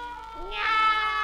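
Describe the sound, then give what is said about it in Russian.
A single drawn-out cat meow, in a home where neighbourhood cats are being called, moderately loud, with a clear harmonic, wavering pitch that swells in the second half. “Мяу. Кошки, кошечки, идите ко мне.”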